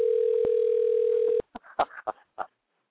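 A steady telephone dial tone while a call is being redialed, holding for about a second and a half before cutting off into a few short, clipped sounds.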